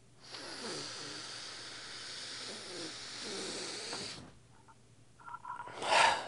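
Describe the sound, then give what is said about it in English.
A very deep breath taken slowly, a long steady airy hiss lasting several seconds, followed by softer breath noise and a brief louder puff at the end. “In fact, let's take that moment right now together. Let's all take a very deep breath.”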